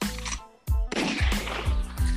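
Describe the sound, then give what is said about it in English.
A gunshot sound effect is let off in an intro: a sudden, sharp blast breaks in after a brief quiet gap, followed by several further punchy hits. “Hold up, let me let off a shot.”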